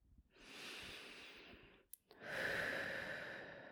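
Slow breathing during a relaxation exercise, drawing air in through the nose and letting it out through the mouth: one long, soft inhale, then a brief pause and a longer exhale, faint and airy with no voice.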